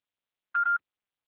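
One short answering machine beep: a steady, clean mid-pitched electronic tone lasting about a quarter of a second, sounding alone in silence.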